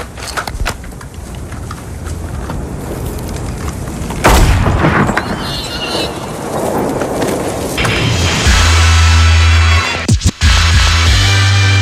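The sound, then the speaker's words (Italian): A gunshot cracks out as a single loud, sharp blast partway through, amid dense ongoing noise, followed later by a sustained low droning tone. “Ora smettila di tentennare e spara.”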